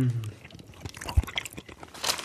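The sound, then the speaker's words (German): Biting into and chewing a piece of green pesto cheese, with soft crunchy, moist mouth sounds in irregular bursts and a brief voice at the very start. “So, möchtest du das erste Stück probieren? Ja, klar. Ich probiere eh alles. Okay, bitteschön. Ein grünes Stück Pesto-Käse.”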